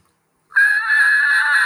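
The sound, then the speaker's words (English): A basic steady tone blown on a turkey mouth call, starting after half a second of silence and then holding one fairly high, reedy pitch with strong harmonics, even and unbroken to the end. “And when I teach someone how to yelp on a mouth call, I first teach them how to get a sound out of a call. And it's going to sound something like this.”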